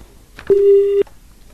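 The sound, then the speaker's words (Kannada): A telephone tone sounds after a call is disconnected: a single loud, steady electronic beep of about half a second, alone against a quiet background. “ಕರೆ ಕಡಿತಾ ಆಯ್ತು.”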